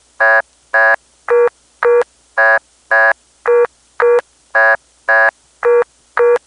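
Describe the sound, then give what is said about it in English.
A telephone vacant code tone from the Centel network in Las Vegas plays as twelve short, evenly spaced tone bursts in a steady rhythm. The bursts alternate between two slightly different tones, with nothing else heard. “it was the independent phone company called Centel, and they had a very interesting network. Here's the vacant code tone from Las Vegas.”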